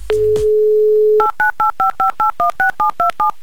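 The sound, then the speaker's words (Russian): A telephone number is dialed for a call: a continuous dial tone gives way to a quick, evenly spaced series of crisp dual-tone keypad beeps. “Я думаю, что по всем канонам, по всем правилам мы можем ей еще раз позвонить. Давайте попробуем.”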